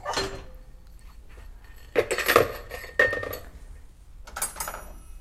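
Dishes, pots and cutlery clink and clatter as kitchen items for making protein fluff are gathered and set down on a surface. A few separate bursts of rattling and knocking come between quieter stretches, with no talk.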